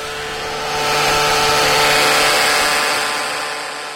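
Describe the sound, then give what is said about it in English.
A pedal-controlled string winder whirs as it wraps silvery metal wire at high speed around a thin metal core for instrument strings. A steady motor hum with sustained tones swells in the middle and eases toward the end. “silvery metal from a spool sitting behind him as it wraps at high speed around a thin metal core strung between the two ends of the string winder, a kind of a lathe for wire. He controls his speed by a foot pedal.”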